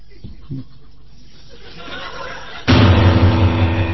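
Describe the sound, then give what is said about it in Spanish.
A pistol shot sound effect in a dramatized scene bursts in abruptly, loud and harsh, after quieter voices. The noise lingers afterward. “Ahora tienes la pistola en la mano, tienes que usarla.”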